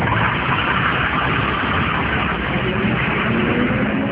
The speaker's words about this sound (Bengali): এখন সে ঢাকা টু সিলেট বাসে চেপেছে।